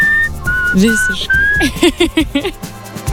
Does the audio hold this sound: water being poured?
no